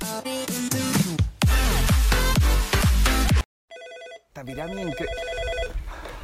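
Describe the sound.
A telephone rings once in an office with a short, clear electronic warble, coming right after loud music stops and just before a voice answers and starts speaking.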